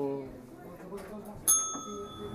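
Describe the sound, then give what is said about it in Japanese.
A single bright bell ding rings out in a sharp strike and decays into a lingering tone. People talk beforehand and their voices continue faintly around it. “チン鳴らしてください”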